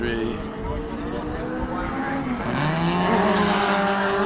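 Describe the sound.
A classic Lotus 23 racing car drives past during a classic car race near Shannonville, its engine a steady buzzing drone whose pitch drops about midway through, heard under talk.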